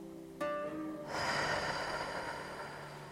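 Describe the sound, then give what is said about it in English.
A deep inhale during a guided gratitude breathing exercise: a long, steady breathy hiss that lasts about two seconds over soft, sustained musical tones. “And breathe in.”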